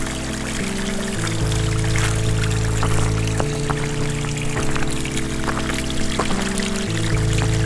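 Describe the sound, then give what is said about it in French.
Gentle water sound, a continuous soft trickling and splashing that holds at an even, quiet level throughout with no pauses. “enchanté par le doux clapotis de l'eau.”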